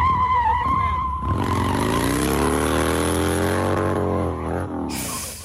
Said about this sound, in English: He flips over the bike.